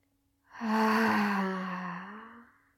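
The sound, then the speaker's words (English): A deep breath taken into the belly during a guided breathing exercise, a single drawn-out breath lasting about two seconds with a soft, voiced, sighing tone, heard alone without talk. “let's end how we started it by taking in a deep breath in your belly.”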